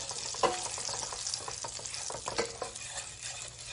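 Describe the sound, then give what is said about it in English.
A spoon scrapes and stirs brown sugar in a hot pan, with a soft sizzle beneath a steady run of scraping strokes, a couple of them louder, and no talking. “I'm going to add some brown sugar. And we're going to get that nice and incorporated. Let's get that going.”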